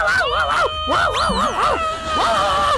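A woman screams with excitement at a Mexico versus Czechia football match: loud, high, wavering shrieks come in a few bursts that rise and fall in pitch, with a short pause before a final cry.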